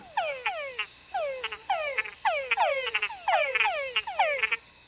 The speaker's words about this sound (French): Ils ne cessent de s'appeler, de se chercher, comme un chant nuptial, comme le chant nuptial des grenouilles.